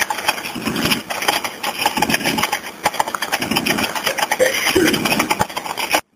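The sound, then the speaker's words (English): A vehicle engine running as someone pulls up at a property: a steady mid-pitched rumble with wavering loudness that continues throughout, then cuts off abruptly at the very end. “I hear somebody pulling up. Is that them?”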